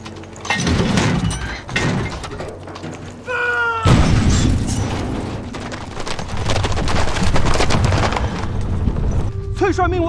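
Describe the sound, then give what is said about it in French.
Gunfire in a battle scene as guns fire on command: a few sharp, booming shots break out amid mechanical clatter and rumbling, with voices heard between the blasts. “Si on fait feu maintenant, nous allons tuer nos soldats. Je dis... Feu !”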